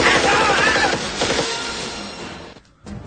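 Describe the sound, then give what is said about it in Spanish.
Gunfire in a futuristic science-fiction video game scene set in 2084: a loud, dense burst of rapid shots that gradually fades, cuts to near silence for a moment, then returns in a short final burst. “aquí, como veis, lo que prima son disparos.”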